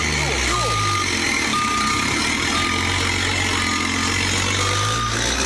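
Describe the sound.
A chiva bus reversing: its reversing alarm gives steady, evenly spaced high beeps about once a second over a loud, continuous low engine rumble.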